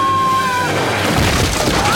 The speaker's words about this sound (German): Sie haben das Feuer eröffnet. Alle Mann in Deckung!